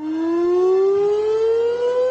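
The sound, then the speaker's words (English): An air raid siren sounds alone and loud in one sustained wailing tone whose pitch climbs slowly and steadily throughout. “With an air raid siren.”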